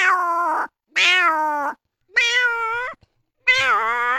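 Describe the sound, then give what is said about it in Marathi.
A hungry cat meows four times, each cry loud, drawn out and whining, with brief silent gaps between them and no other sound. “तसाच मांजर एक भुकेला झाल्यावर आपल्या जवळ फिरत, मग ती मांजर काय कशी काय आवाज देते.”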